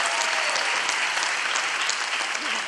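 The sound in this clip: Audience applause breaking into a speaker's talk, a loud, thick rush of many hands clapping that continues evenly without pause throughout.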